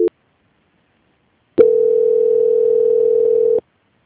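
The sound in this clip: A telephone line tone plays while a call is being transferred: a very short beep, a pause of silence, then a steady single-pitched tone lasting about two seconds before cutting off abruptly.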